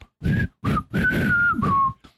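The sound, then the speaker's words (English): An android is whistling a simple children's tune badly: about five halting, uneven notes at a steady high pitch, with the last ones sagging slightly lower. The whistling is heard alone, without talk. “Data's having trouble whistling and he's doing Pop Goes the Weasel, but doing it very badly.”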